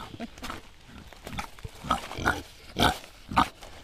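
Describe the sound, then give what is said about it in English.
Snuffling grunts from an excited female kunekune pig waiting at a gate: a series of faint, irregular short bursts that become louder and sharper toward the end. “I've got a nice little female kunekune who's called Brian, called after Bryan Brown.”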